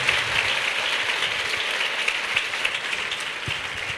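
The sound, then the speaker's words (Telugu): A church audience claps in praise, a steady, dense wash of many hands clapping together that holds at an even level throughout, with no voices over it. “అందరం చప్పట్లు కొట్టి ప్రభుని మహింపారుస్తాం”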